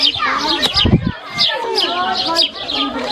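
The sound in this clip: Birds chirp and twitter in a village schoolyard, with many quick, high calls overlapping throughout and voices mixed in beneath the birdsong.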